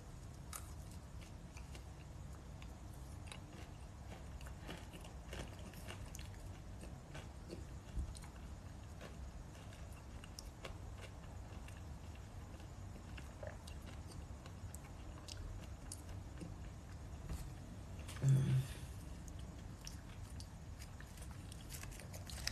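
Faint, steady crunching of granola with seeds and coconut being chewed, many small irregular bites and grinds running on for over twenty seconds, with one slightly louder crunch near the end.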